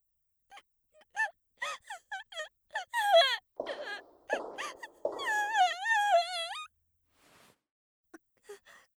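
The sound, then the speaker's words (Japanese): A woman crying: a run of short, gasping sobs breaks into a longer, wavering wail in the middle, then trails off into faint, shaky breaths. “ごめん、泣いたって仕方ないわよね。”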